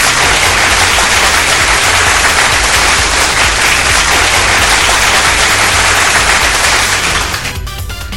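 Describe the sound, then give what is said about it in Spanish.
Applause for a guest on a live Spanish-language stream: a dense, loud, continuous wash of clapping that holds steady throughout and thins slightly at the very end. “Aplausos para mi Jorge Ávila.”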